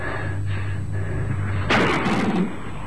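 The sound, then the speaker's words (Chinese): A single gunshot in a radio drama, used as a sound effect: one sharp, loud burst that decays briefly over a low, steady background hum. “老爷，尝尝奴才的子弹吧。”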